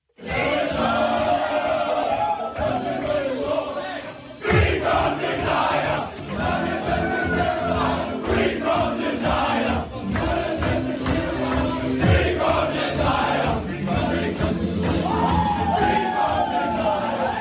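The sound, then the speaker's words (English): Bulldogs players partying in the rooms, yelling, whooping and cheering loudly and without a break, many voices shouting over one another the whole way through. “Now, we played this on Monday's Gillian Goss show, and this was the Bulldogs party in the rooms.”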